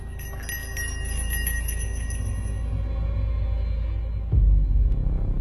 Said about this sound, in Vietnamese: lẩm bẩm thần chú, khẽ lắc cái chuông lên. Tiếng chuông trong trẻo vang lên.